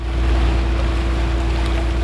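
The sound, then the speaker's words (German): A small boat is steered out of a boathouse across clear water on the Königssee. Its motor gives a steady low drone with a constant tonal hum over a broad noisy wash, loud and even throughout. “ein kleines Schiff aus dem Bootshaus, steuert es über glasklares Wasser, vorbei an wolkenverhangenen Felswänden und legt am Steg an”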